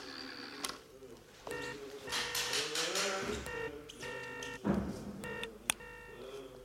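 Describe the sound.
Touch-tone beeps sound as a telephone is dialed for a call, a few short pitched tone bursts in quick runs, mixed with muffled background noise and scuffling.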